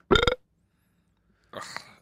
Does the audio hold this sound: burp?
yes